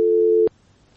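A telephone busy signal after a disconnected call: one steady, fairly low tone sounds alone for about half a second, then cuts off abruptly to quiet line hiss.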